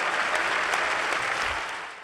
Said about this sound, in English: Give it up for Terry Gross, ladies and gentlemen.